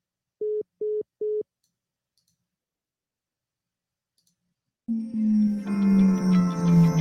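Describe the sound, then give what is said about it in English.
A telephone line sounds after a caller hangs up: three short, identical mid-pitched beeps in an even rhythm. Then a silent gap, and a louder sustained tonal sound swells in. “The caller has hung up.”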